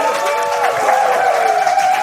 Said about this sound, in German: Und ein Applaus, bitte. Ja, ein Applaus für die Kandidaten.